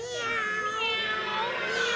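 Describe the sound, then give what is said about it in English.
Several cats meow while trailing behind a boy who pulls a fish along beside him. Their high, wavering cries overlap in a steady, continuous chorus. “Hey, why are all these cats following behind me?”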